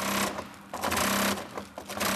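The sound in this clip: A twin-needle sewing machine stitches heavy silver fabric in a workshop hall, running in fast, steady mechanical bursts with a few brief pauses between runs.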